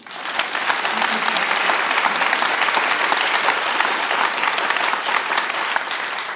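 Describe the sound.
An audience applauds an author as she is welcomed to talk about her latest book. Loud, dense clapping holds steady and even from start to finish.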